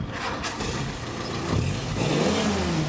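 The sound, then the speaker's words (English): A vintage World War II or Korean War era Jeep engine revs with a rough, mid-low rumble, its pitch climbing around the middle and again near the end. “Thanks for the Jeep. It's a vintage, like World War II's That's Jeep. Or maybe like Korean War era.”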